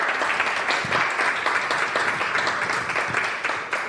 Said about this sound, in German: Einen kräftigen Applaus für die Jana.